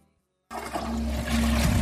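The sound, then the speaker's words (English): A toilet flushes with a sudden loud rush of water after a brief silence. The turbulent gushing stays strong and steady, swelling slightly toward the end. “The toilet sneeze. Every flush spews bacteria onto surfaces”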